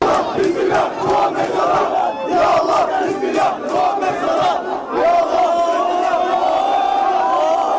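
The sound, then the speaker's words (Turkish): Football fans chanting and cheering at an airport while welcoming a player: a dense, continuous roar of many loud voices with rhythmic shouted bursts, sustained throughout with no pause. “Muhammed Salah taraftarların tezahüratlarına alkışlarla karşılık verip ardından yoğun güvenlik önlemleri altında araca bindi”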